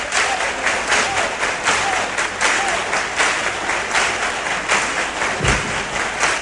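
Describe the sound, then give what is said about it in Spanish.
Bullring audience clapping for Huelva in rhythmic palmas, many hands striking together in a steady, regular beat that continues throughout at a lively, even pace. “Y bueno, palmas por Huelva.”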